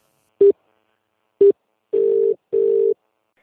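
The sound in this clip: Telephone tones as a call is placed: two short beeps followed by two longer steady tones, all at the same mid pitch, separated by silence, with no voices.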